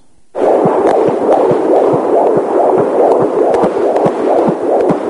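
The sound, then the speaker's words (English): Doppler fetal heart monitor picking up a baby's heartbeat during pregnancy: a rapid, steady train of whooshing, throbbing pulses over a constant hiss, loud and alone after a brief quiet start. “And that, my friends, is a Doppler recording of a heart monitor that doctors use to check out a baby's heartbeat during a mother's pregnancy.”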